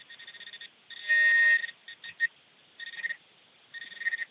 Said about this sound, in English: so when you hear that beeping, it means we're coming close into a target that is made out of, out here, it's mostly made out of iron